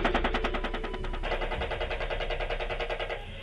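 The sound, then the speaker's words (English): Rapid automatic gunfire is aimed at a disabled van: a continuous stream of many sharp, evenly spaced shots that stays loud and harsh throughout without a pause. “And they're still, even though they just said that the van's disabled, they're still firing on it.”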